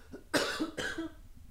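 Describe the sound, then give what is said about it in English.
Two short, forceful coughs from one person, the second slightly weaker than the first, each a sharp burst followed by a brief fading rasp, with quiet between and after. “I have to cough. I'm going to cough away.”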